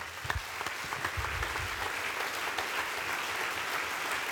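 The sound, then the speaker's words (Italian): Audience applause at an event: steady, fairly faint clapping that runs unbroken for about four seconds, with no voices over it. “io vorrei che faceste un bel applauso per Olivier”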